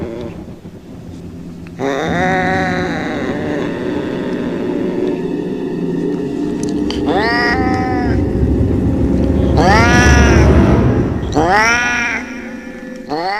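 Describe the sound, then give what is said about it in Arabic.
A cat meows in a horror drama, giving several drawn-out, wavering cries over a steady low rumble, the last ones louder and higher. “هي اي نعم ده القطة، بس صوت القطة كان خارج منها.”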